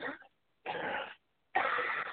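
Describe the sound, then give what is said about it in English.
A woman coughs three times, harsh, breathy bursts separated by short pauses, with the second and third coughs longer and louder than the first. “And coughing. She'll be right back. She's had a cough.”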